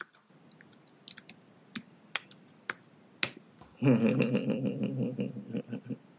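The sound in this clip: Keys on a computer keyboard are tapped while a web address is typed, a dozen or so sparse, irregular clicks, followed by a louder steady buzzing tone with more faint taps continuing beneath it.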